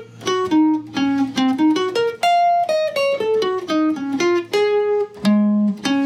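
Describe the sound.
A guitar phrase played high up the neck in tenth position, fretted with the fourth finger: a flowing melodic line of many clear plucked notes with bends and slides, ringing alone with no talk.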